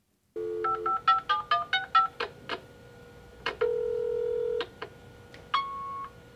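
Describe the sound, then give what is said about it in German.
Telephone answering machine tones before a recorded message: a rapid run of short keypad beeps, one long steady tone, then a few more beeps and a final held tone, clear and alone with no voices. “Sie hören eine Nachricht auf dem Anrufbeantworter.”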